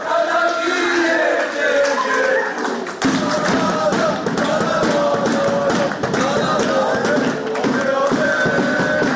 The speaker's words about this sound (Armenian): Ոգևորող կոչեր, շնորհավորանքներ, երկ, թմբուկ, ֆուտբոլի երկրպագուներն այսօր ուրախ տրամադրություն էին բերել Զվարթնոց օդանավակայան։